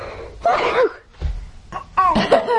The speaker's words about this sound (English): I gotta sneeze.